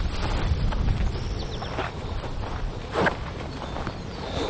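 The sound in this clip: Cattle walking away across a farm field: a few soft thuds and shuffling steps under steady wind noise.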